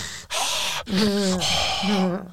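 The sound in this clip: A deep breath drawn in during a guided meditation: a noisy rush of inhaled air, then a long, voiced, breathy sound that sustains to the end.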